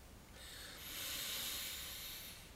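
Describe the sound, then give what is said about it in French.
A slow exhalation during a breathing exercise: a soft, airy hiss that swells, holds and then gradually eases off, heard alone. “Nous relions le bas et le haut, comme nous savons le faire. Expiration d'abord.”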